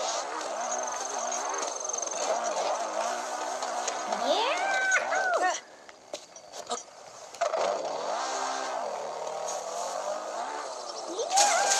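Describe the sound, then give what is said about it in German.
A car engine revs and hums as the car drives into a forest in a video game, its pitch sweeping up and down with throttle changes, under steady talk. “Ich fahre jetzt hier in den Wald rein. Da kann ich wieder krasse Jumps machen.”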